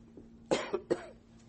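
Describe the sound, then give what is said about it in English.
Coughing and throat clearing: three rough, short coughs in quick succession, the first the loudest, followed by quiet. “See if I can, lubricate my throat just a little bit.”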